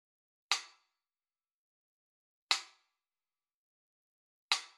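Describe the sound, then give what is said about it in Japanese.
Three sharp, evenly spaced ticks of a metronome swinging left and right. Each is a crisp, bright click with a quick decay, separated by long silent gaps. “左右に揺れるメトロノームの音を聞いていると、その音に意識がスーッと吸い寄せられていく。”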